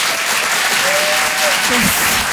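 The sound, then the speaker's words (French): Thunderous audience applause at a comedy and song evening show, a steady, dense roar of clapping that fills the entire moment without letting up. “Tout le monde, un tonnerre d'applaudissements là aussi pour Philippine Delair.”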